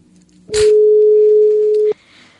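A telephone tone sounds while a call is being placed: one loud, steady, pure tone held for well over a second, with a click at its start, then cut off abruptly.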